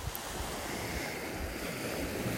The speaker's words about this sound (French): Térénèse, euh, vous entendez là Les vagues Peut-être que les plus experts d'entre vous euh, à l'oreille auront reconnu que le coefficient est exactement de 100. C'est une grande marée.